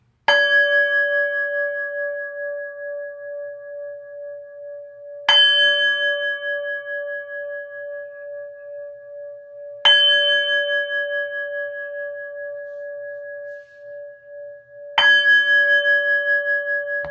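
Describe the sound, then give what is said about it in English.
A singing bowl is struck four times, and each strike rings into a long, steady, bell-like tone that slowly fades before the next strike sounds. “Please allow me to initiate the singing bowl as we create the resonant sounds to allow the spirits to join us.”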